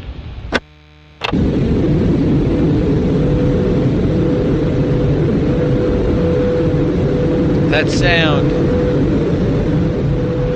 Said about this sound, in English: That sound. That's the Sunday shuttle landing.